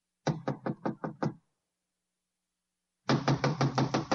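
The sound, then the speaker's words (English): Knuckles rap on a door: six quick, evenly spaced knocks, a pause of more than a second, then a second burst of several more knocks in the same rhythm. “I'll give it a knock.”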